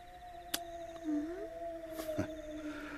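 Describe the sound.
A wolf howls in a long, sustained, faint tone that holds steady, briefly dips and climbs again partway through, then carries on evenly, with a few sharp clicks standing out against it.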